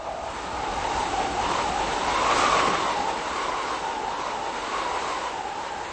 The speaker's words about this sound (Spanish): Cuando nos acercábamos al castillo de Blatná, un fuerte viento azotaba las aguas de su foso acuático